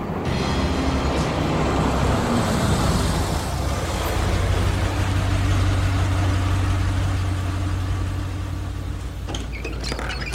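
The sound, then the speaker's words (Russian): Engine rumble of a bus pulling up in traffic. A continuous low drone with broad hiss settles partway through into a steadier, lower idling hum. “Подъезжает автобус.”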